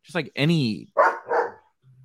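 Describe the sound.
Several dogs bark excitedly indoors in a few loud bursts. The first calls have a tonal, whining edge and the later ones are sharper and rougher, with a brief pause between them.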